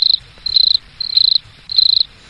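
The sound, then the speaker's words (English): Cricket chirping as a sound effect: four high-pitched pulsed trills in an even rhythm with short gaps between them, with nothing else heard. “Oh, fuck you with the crickets.”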